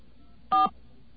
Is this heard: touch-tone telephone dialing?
yes